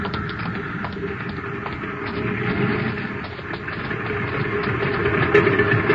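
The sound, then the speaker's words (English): An airplane engine coming in to land drones steadily and evenly, a low, rough hum that swells slightly toward the end. “Yeah, she's back. Coming in for a landing now.”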